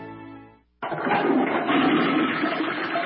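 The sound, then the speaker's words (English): A toilet flushes: after a fading tone and a moment of silence, a loud rush of water bursts in abruptly and keeps churning at a steady level to the end. “Hear that? That's the sound of nearly 3 million American jobs being flushed down the toilet.”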